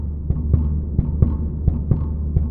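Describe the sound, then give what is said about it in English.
A mechanical pump in a winery thumps in a steady heartbeat-like rhythm. Paired low beats repeat at even intervals over a faint low hum. “You might hear a mechanical sound like this pump. And you might hear the rhythm of a heartbeat.”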